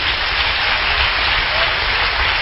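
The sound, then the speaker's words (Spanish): Applause from a church audience: a dense, steady wash of clapping that stays at an even, fairly loud level throughout, with no breaks or pauses. “Denle un aplauso al Señor.”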